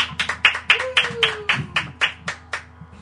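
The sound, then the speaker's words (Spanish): Audience clapping at a rock concert, heard as a series of sharp, evenly spaced claps that form a steady rhythmic beat at a moderate level. “así que un aplauso, por favor”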